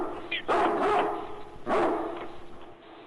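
A dog barks in two loud bursts, with softer yips and whimpers around them.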